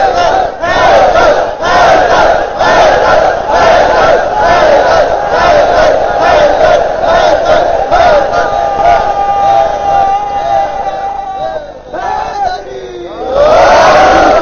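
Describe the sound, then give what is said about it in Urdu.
A crowd at a Shia religious majlis chants a slogan in unison, many voices shouting together in a loud, steady rhythmic pulse that thins briefly near the end before surging again. “جب نعرہ لگایا تو سب مل کے لگایا کیجیے.”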